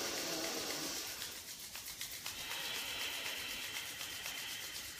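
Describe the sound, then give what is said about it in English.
Hands rubbed together energetically during a guided breathing exercise give a steady, soft, continuous swishing friction with a gentle rhythmic pulse, faint and alone with no talking. “bring your hands together, close your eyes. And as you exhale, rub your hands energetically.”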